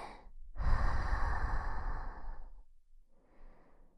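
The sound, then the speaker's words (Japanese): Deep breathing during a guided relaxation exercise: a long, loud, airy exhale of about two seconds, followed by a softer breath, with no talk over it. “大きく息を吸って、吐いて、”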